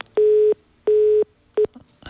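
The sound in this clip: Telephone tone sounding after a call-in line is disconnected: three steady, mid-pitched beeps at an even pace, the first two lasting about a third of a second each and the third cut shorter.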